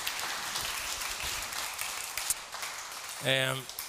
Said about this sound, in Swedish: stor applåd